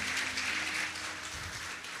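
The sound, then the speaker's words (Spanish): Applause from a church audience, a steady wash of clapping hands, moderately faint and even, continuing without talk for about two seconds. “Un aplauso para cada uno de ellos.”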